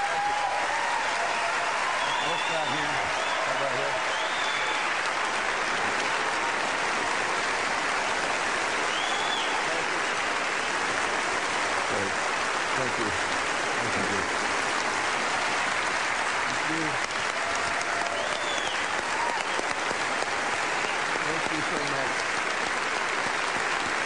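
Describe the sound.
Sustained applause from an audience giving a standing ovation to Senator Barack Obama at a political event, a dense, even roar of many clapping hands that holds steady for the full duration with a faint crowd murmur mixed in.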